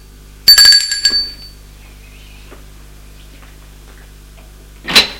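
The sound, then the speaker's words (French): A doorbell rings at a home, sounding a clear, ringing chime tone near the start that fades out. A long quiet stretch follows, then a brief burst of noise. “Plus tard, il sonne chez Judith.”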